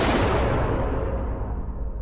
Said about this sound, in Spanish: justo al abrir la puerta oí un disparo dentro